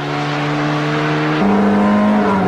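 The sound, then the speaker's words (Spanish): A SEAT 124 Especial engine accelerating hard from standstill toward 100 km/h, a loud, steady droning whine that steps up in pitch partway through and holds there. “Este, el 124 de especial, el más potente. Prueba de aceleración de 0 a 100.”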